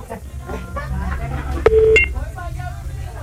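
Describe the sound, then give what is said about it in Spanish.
A brief electronic telephone-line tone sounds once as a call comes in on a radio phone line. It is short and steady, set against a low hum and a murmur of background voices. “Tenemos una llamada”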